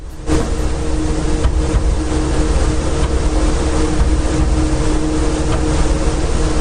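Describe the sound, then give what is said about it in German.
Poorly damped hard drives in a server rack rumbling, heard as a steady, continuous mechanical drone with low hum and faint tonal whine. The level stays even throughout, with no voices. “Das ist mein Server-Rack mit etwas schlecht gedämpften Festplatten. Die machen immer so Holpergeräusche.”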